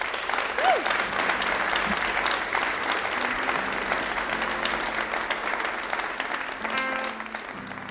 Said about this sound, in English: Once again, let's hear it for Andrew Hibbard.